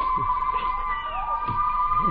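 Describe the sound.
A crowd of neighbours cheers and shouts outside in a radio drama, with muffled overlapping voices rising and falling under a steady high whine that runs throughout.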